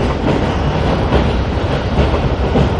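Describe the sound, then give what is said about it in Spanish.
A train at a station gives off a loud, continuous rumbling roar with no talk over it. “El tren está parado en una estación.”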